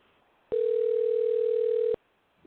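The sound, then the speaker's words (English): A telephone dial tone sounds as a call is about to be dialed: one steady, unbroken hum of even pitch lasting about a second and a half, loud and alone, with quiet before and after. “let's dial in Jesse.”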